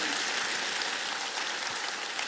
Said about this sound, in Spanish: Vamos a dar un aplauso más.